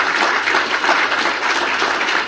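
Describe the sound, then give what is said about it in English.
An audience gives another round of applause in thanks for someone's work on a project, producing an even, dense wash of clapping that holds steady throughout. “we should have one more round of applause for the work that Don has done for this project”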